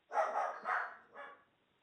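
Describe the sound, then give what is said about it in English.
A family's pet dog barking in three rough, breathy bursts, the last one softer, with nothing else heard. “Hey, I hear barking. Yeah, that's our dog.”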